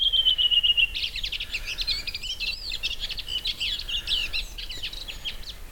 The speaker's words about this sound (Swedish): En av rödvingetrastens alla dialekter.